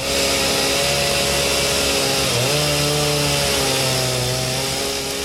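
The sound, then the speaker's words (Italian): A chainsaw runs steadily, loud and continuous, with a buzzing engine drone whose revs dip briefly partway through before settling back, and no voices. “le faccio ascoltare ancora una volta il canto della sua motosega.”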